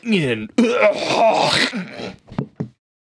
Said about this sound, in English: What was that? I like choked on my own throat.